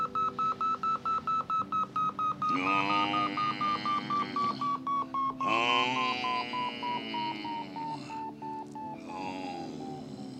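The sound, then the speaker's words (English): A hemorrhage gauge beeps electronically in a rapid, even train of short, high beeps. Sustained warbling electronic tones follow and sink slowly in pitch while they pulse on and off. “Sheriff, is that your radio acting up? No, that ain't my radio. It's my hemorrhage gauge that's beeping.”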